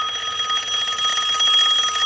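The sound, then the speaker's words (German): A cordless telephone on its charging station rings in the middle of the night with a shrill, steady electronic trill. The ring is loud and continuous for the whole clip, and no voices are heard. “Das Telefon. Nur das Telefon.”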